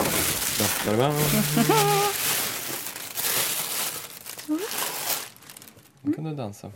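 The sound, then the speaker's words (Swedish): Paper crinkles and rustles as a pair of wedding shoes is unpacked, with people talking over the handling noise. “Hon packar upp skorna som hon ska ha på bröllopet.”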